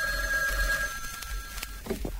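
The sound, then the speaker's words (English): A telephone bell rings with a steady, bright tone that stops shortly before the end, leaving only faint background sound. “Oh, you hear that? That was the bells of Capistrano, I think. No, that's the phone.”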